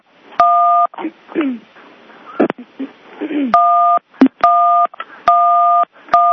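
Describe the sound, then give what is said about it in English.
Telephone keypad dialing tones: five steady two-note beeps, each lasting about half a second, come at uneven intervals, with voices talking in the gaps between them. “Deliberate? Who's dialing their phone? No, it's probably deliberate.”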